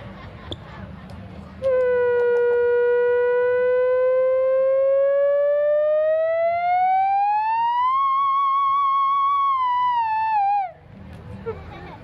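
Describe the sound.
A theremin played one-handed holds one sustained, buzzy tone rich in overtones. It glides slowly upward, climbs more steeply toward the end, then dips briefly before cutting off, with faint noise before and after.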